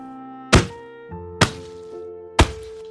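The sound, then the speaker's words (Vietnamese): A wooden stick beats a person: three loud, heavy thuds at uneven intervals, with a steady sustained musical tone underneath. “bắt đầu giơ gậy lên phang tới tấp”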